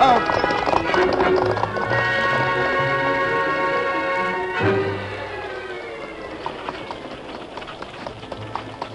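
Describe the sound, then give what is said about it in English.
Galloping hoofbeats of a ridden horse heading toward wagons on a muddy trail, a quick rhythmic clatter running beneath sustained orchestral music that swells midway, with the hooves standing out more sharply toward the end. “There they are, Tonto. We ride to the lead wagon. Come on, Silver!”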